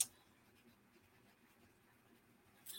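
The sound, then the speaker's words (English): Faint scratching of a pen or pencil writing a name by hand, a soft, continuous rasp with slight irregular strokes, very quiet throughout. “Let's write your name down.”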